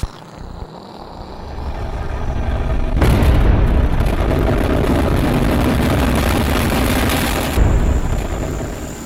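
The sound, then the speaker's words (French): A rocket lifts off after a countdown: after a few quiet seconds, a deep, loud roar bursts in abruptly and holds steady as a broad rumbling, crackling wall of noise to the end. “Décollage.”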